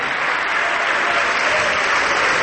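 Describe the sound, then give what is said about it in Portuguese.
Church audience applauding during a Portuguese-language service: a loud, dense and unbroken roar of many hands clapping together, steady at full strength throughout. “Vamos aplaudir, olha quanta gente chegando, vamos aplaudir mais.”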